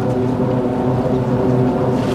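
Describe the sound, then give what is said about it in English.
A drawbridge's 544-foot steel span is driven down while its counterweights rise, a loud, steady machinery drone with a low hum and sustained mid-range tones that hold unchanged. “The upper span lock's just pulled. The bridge is now coming down. It's being driven down. Counterweights are going up. And the span is coming down.”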